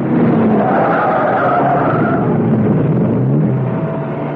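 A car brakes, swerves and pulls off the road: a loud, continuous roar of engine and tire noise fills the whole clip, with faint whining tones drifting through it and no clear pauses.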